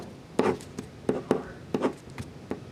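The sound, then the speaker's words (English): A pen scratches out a stick figure in several quick, separate strokes, each a short dry scrape with pauses between, with no talk. “Everyone can draw a stick figure, right?”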